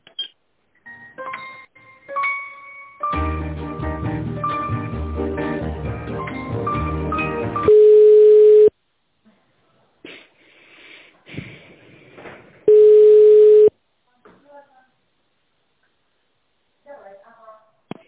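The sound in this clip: Telephone line tones while a call is being transferred: two long, steady mid-pitched beeps of about a second each, separated by quiet, with busy tonal sound and brief voices around them.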